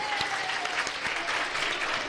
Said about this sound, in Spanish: Colegio Público Badiel, otro buen aplauso